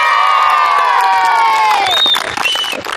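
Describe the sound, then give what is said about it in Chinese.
Children shout and cheer on a primary school football field in Shache County: a dense, loud, continuous mass of many high voices calling out together, with a few sharper calls standing out near the end. “奔跑、呐喊。沙车县喀群乡中心小学的足球场上十分热闹。”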